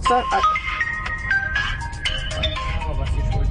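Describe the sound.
A phone ringtone signals an incoming call inside the cab of a 2021 DAF XF truck: a quick melodic run of bright electronic notes over a steady low rumble.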